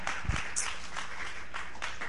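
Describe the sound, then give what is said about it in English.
Church audience applauding the fathers present, a steady, fairly soft wash of clapping that lasts throughout. “So let's just give everybody that's not a dad, a father, just give clap offerings to fathers here today. They are a blessing.”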